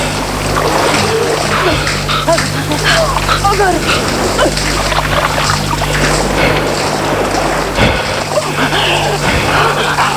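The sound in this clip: Water splashes and churns constantly as someone held under the surface thrashes to escape, a dense, unbroken wash of splashing with a voice talking over it.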